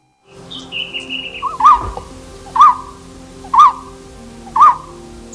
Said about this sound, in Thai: นกโพระดกคางเหลืองที่ส่งเสียงร้องดังจากยอดไม้